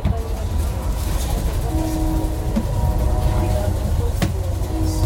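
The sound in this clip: Interior of a moving passenger train carriage: a steady low rumble with rhythmic rattling and a few sharp clicks throughout.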